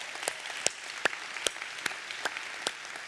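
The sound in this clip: Faint audience applause welcomes the audience at a church service, a steady wash of clapping with a few sharper claps standing out at regular intervals.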